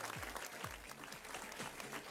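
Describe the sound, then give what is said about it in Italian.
Applause from a club party crowd after a DJ set: dense, steady clapping that stays even throughout, fairly faint, with a few voices and low thumps mixed underneath. “Un applauso.”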